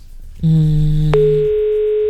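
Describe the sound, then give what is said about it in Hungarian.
A telephone line tone sounds while a number is being called. After a short quiet lead-in, a loud, steady electronic tone starts, then about halfway through it switches abruptly to a thinner, higher single note that holds steadily to the end. “Szerintem ugyanaz a számot hívjuk véletlenül.”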